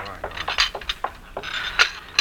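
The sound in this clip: Plates, water glasses and silverware clink as they are carried along, giving several light, sharp chinks and rattles at irregular moments amid voices.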